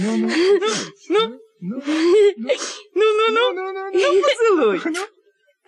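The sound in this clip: A child whimpers and moans in several short, whiny bursts with wavering pitch, on the verge of crying, broken by brief pauses.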